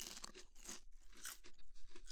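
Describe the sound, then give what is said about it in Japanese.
Someone crunches and chews a butter cookie up close. Many small, quiet bites and grinding chews come in an uneven rhythm. “いいかなと思ってバタークッキー食べます。”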